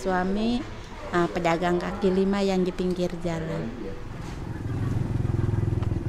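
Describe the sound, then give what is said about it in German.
A motorcycle rides off through a neighborhood in North Jakarta. A voice talks over the first half, then the engine's low, steady putter grows louder and carries on alone. “Sie bittet den Reporter auf den Rücksitz ihres Motorrads und fährt los, um ihre alte Nachbarschaft zu zeigen”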